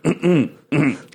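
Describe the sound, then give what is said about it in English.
A voice imitates throat clearing with a short series of raspy, guttural vocal bursts, loud and close, each rough rasp breaking off before the next. “She just is always clearing her throat in the movie.”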